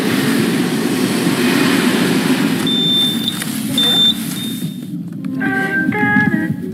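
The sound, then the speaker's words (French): Railway station ambience at La Souterraine station, with trains: a steady low rumble throughout, two high electronic beeps in the middle, and higher tonal squeals near the end. “La gare de la souterraine.”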